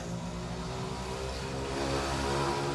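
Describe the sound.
Mopeds driving past: a steady, buzzing engine drone that holds even throughout and swells slightly toward the end, with no talk.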